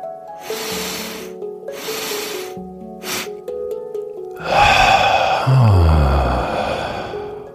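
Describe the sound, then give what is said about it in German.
Breathing exercise with an extra push at the end of the exhale, followed by an inhale, over soft tonal music. Two long, airy breaths come first, then a short, sharp puff, then a louder and longer rush of breath. “dann versuch nach deiner Ausatmung noch einmal ein bisschen mehr auszuatmen, wie so ein kleiner Push. Und atme wieder über drei plus den kurzen ein.”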